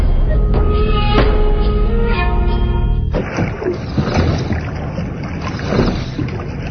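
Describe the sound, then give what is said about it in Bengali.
A small hired boat heads across a wetland at night. A steady tonal drone fills the first half, then gives way to broad rushing water and wind noise that continues to the end. “সেখানে বহু কষ্টে একটা নৌকা জোগাড় করে আমরা আমাদের স্পটের উদ্দেশ্যে রওনা দিই।”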